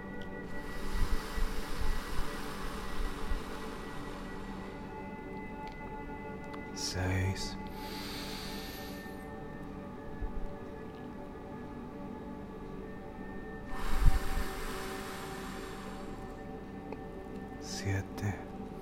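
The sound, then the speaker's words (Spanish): Slow breaths out, a couple of long airy exhalations over soft, sustained tones, with a calm voice speaking in between. “Y exhala.”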